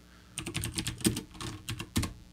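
Rapid keystrokes on a computer keyboard as someone types to look something up online, with many quick, uneven clicks in irregular bursts and no voices over them.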